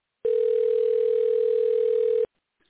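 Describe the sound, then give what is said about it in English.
Telephone dial tone while dialing in for a call: a single steady mid-pitched tone that lasts about two seconds, then cuts off abruptly into silence. “And I am dialing in now, trying to get Dr. Brian Artis”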